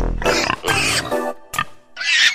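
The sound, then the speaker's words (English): Pigs squeal and grunt in several loud, rough bursts separated by short pauses. “There are the pigs. I knew they'd come in here somewhere.”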